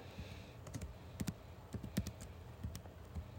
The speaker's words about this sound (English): I will go with the Bandits as well. Writing these down as we speak.